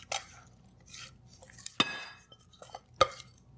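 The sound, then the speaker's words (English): Gluten-free hummingbird cake batter is gently folded into dry ingredients with a rubber spatula in a bowl. Soft, faint scraping is broken by a few sharp clinks against the bowl, set among quiet pauses. “And we're just going to gently stir it in. We don't want to overmix this.”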